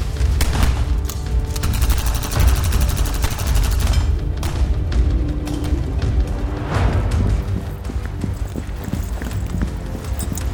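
Rapid gunfire fills a firefight in a military video game, with many loud, dense shots cracking in continuous bursts and a heavy low rumble underneath throughout.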